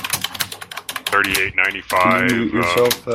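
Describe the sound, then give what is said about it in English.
Computer keyboard typing clatters during an online call, a rapid stream of sharp clicks that is soon followed by a person talking. “I was asking if you can mute yourself. We can hear your keyboard.”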